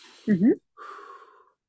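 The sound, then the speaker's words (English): A person takes a deep breath: a sharp, voiced gasp as the air is pulled in, a short pause, then a longer, softer exhale that fades away. “I'm just gonna take another breath.”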